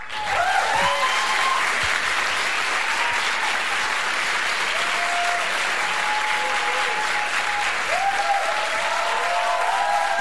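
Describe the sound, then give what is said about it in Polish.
A studio audience applauds a band with a dense, steady wash of clapping. It stays loud and even for about ten seconds. “Te brawa już dla zespołu, który widać za mną na scenie.”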